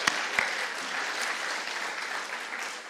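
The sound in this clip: Applause from a church audience during a worship service, a steady, fairly soft wash of clapping that opens with a couple of sharper individual claps and holds evenly to the end.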